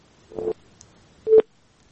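Telephone tones after a caller's line drops during a phone-in: two short, separate electronic bursts on a quiet background, the second one brighter and more clearly tonal than the first.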